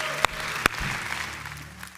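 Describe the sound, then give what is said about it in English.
Applause at a church service opens with two sharp, loud claps, then settles into a steady, fairly quiet patter of many hands that carries to the end. “Come on, can we give God a huge round of applause?”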